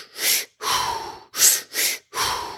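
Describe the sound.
Deliberate three-part breathing of belly inhale, chest inhale and exhale, heard as five airy breaths of uneven length separated by short pauses, moderately loud and with no talking.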